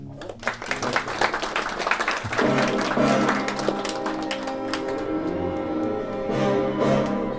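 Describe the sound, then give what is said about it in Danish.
Opening music for a radio programme about books on the Second World War, with a dense, clattering burst of percussive hits early on that settles into a steady layer of sustained tones, with no speech. “Velkommen til programmet Hitlers Æseløer, et program om bøger om den anden verdenskrig. Mit navn er Jan Cordua. Ja, det I hører her, det er introen til mit radioprogram”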